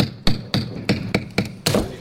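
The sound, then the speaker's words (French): A hammer strikes in a steady series of six sharp, loud knocks with short pauses between them. No voices are heard. “Prends mon marteau”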